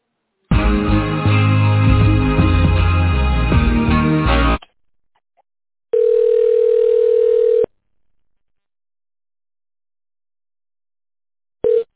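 A telephone line sounds while a call is being connected. A dense, tonal passage is followed by a steady mid-pitched tone lasting about two seconds, then a brief repeat near the end, with silence in between.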